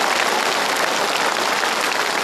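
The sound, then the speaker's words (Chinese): Dense, steady applause from an audience congratulating a man reunited with his family after 60 years, a continuous even patter of many clapping hands with no clear break. “我们再次用掌声，恭喜。”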